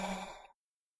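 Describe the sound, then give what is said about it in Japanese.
A single soft exhale during a guided breathing exercise, breathy and gentle, fading out into silence after about half a second. “吐いて、吐いて、”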